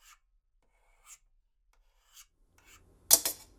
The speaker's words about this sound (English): This is the birth of a violin. Methodical scraping at pieces of wood.